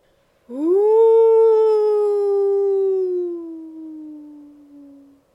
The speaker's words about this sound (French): Elle tressaillit, puis ce fut un hurlement dans la montagne.